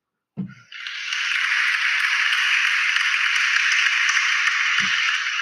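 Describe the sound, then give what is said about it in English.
Canned crowd applause sound effect: a dense, hissing wash of clapping that swells in after a brief low thump and holds steady and loud for over four seconds, ending with another soft thump. “Yeah, man, I had to hit you with the janky crowd applause. You know what I'm saying? Because I don't have any engineers right now”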